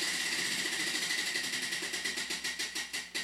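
A spinning prize wheel ticks rapidly, its many clicks gradually spacing out and slowing as it winds down, over a steady background hiss.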